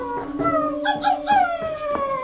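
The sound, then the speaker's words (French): A dog howls in front of a door, giving a continuous, wavering, mournful cry with a few pulsing swells that sinks slightly in pitch. “Mon chien s'est mis à hurler à la mort devant la porte de Monsieur Bergamote.”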